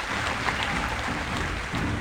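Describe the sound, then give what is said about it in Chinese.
Crowd cheering as a horse race ends and the winning horse reaches the finish: a steady, dense roar of many voices that holds at an even loudness throughout. “聚集在那里的人们欢呼起来。”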